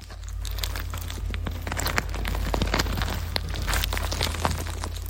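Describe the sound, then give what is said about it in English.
Plastic waste crunches inside the stomach of a small sable shearwater from Lord Howe Island, a dense, continuous crackling and crinkling full of tiny sharp snaps over a low rumble. “that is the sound of plastic waste crunching inside the stomach of a small bird. The sable shearwater from Lord Howe Island, 600 kilometres off the coast of Australia.”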